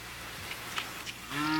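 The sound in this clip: A cow starts a low, steady moo near the end, a harmonic tone rising out of a faint, noisy background.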